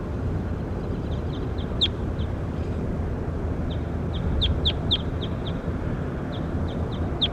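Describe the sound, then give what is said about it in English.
A bird being recorded for study gives many short, high chirps in loose clusters, faint over a steady low background noise. “Start recording bird K2 again.”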